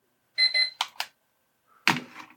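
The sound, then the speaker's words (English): An alarm goes off with a few short, high electronic beeps, followed by a couple of brief, noisier bursts and a louder final burst after a short pause. “I just had my alarm go off.”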